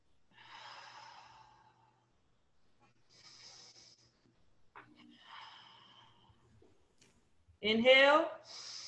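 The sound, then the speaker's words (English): Deep belly breathing, the stomach expanding with each inhale: a few slow, soft, airy breaths in and out separated by quiet gaps, followed by a louder voiced sound at the end. “Inhale, exhale. Inhale. Exhale.”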